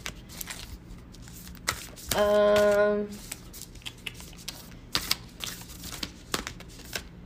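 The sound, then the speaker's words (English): Tarot cards shuffled in one dense, rippling burst of about a second, with sparse light clicks and taps scattered before and after. “Too many cards flopped out of the deck, and I'm like, nah, be more specific, homie.”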